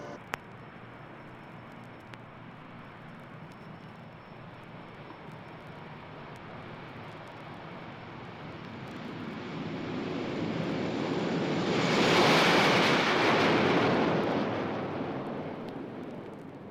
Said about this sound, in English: Sabre has taxied down to the end of the runway and is now waiting permission from the control tower to take off. 918 clear for takeoff, wind southwest 1-2. All right, then 918 going.